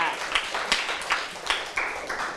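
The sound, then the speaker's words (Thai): Classroom applause for a classmate: a wash of many hands clapping, with sharper claps landing at a steady, regular beat throughout. “ทำให้อาจจะเกิดมีเพศสัมพันธ์ก่อนวัยอันควรได้ปรบมือให้กับเพื่อนค่ะ”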